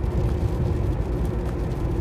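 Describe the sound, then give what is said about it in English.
A car driving along a country road in the rain, producing a steady, dense low rumble of engine and road noise with no clear breaks. “So, for instance, I'm driving on this road now.”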